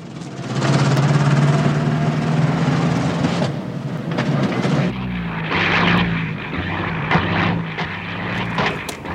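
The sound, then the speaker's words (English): Propeller airplane engine drones loudly and steadily with a low tonal hum, then shifts midway to a rougher, more uneven rumble. “But then we cut back to Cliff's plane.”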